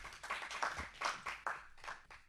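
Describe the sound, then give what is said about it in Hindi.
Audience clapping welcomes a performer onto the stage, heard as faint, irregular bursts of hand claps rising and falling with no voices. “अब मंच पर आमंत्रित कर रही हूं नव नित्य विनायक को, करतल ध्वनि से हम स्वागत करेंगे।”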